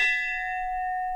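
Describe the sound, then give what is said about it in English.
A single strike of an old bell, rung to mark each new life insurance policy since the 1930s, gives one bright, clear tone that rings on steadily and loudly for over a second. “And that is the sound of a life bell. They date back to the 1930s, when agents and later operations staff began ringing a bell every time they binded a new life policy.”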